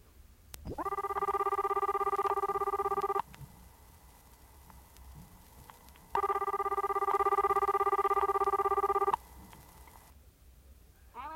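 A telephone line rings while a call is being put through: two long, steady buzzing tones of even pitch, each lasting about two to three seconds, separated by a quiet pause.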